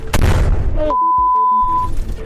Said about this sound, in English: Looks like a drone grenade. Looks like a grenade from a drone that just landed. Just hit right in front of our vehicle.